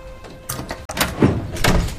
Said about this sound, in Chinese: 你不是进去了吗？ 你把门打开说呗。